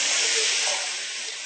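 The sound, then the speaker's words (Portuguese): Sizzling of carrot and onion sautéing in a pan while being stirred: a steady, bright hiss that holds level, then eases slightly softer partway through. “Coloca a primeira cenoura, que ela é mais durinha. Mistura junto.”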